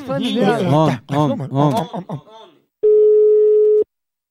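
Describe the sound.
A steady mid-pitched telephone tone sounds while a call is placed to a woman's home. It holds level for about a second and then cuts off abruptly, after a stretch of voices talking.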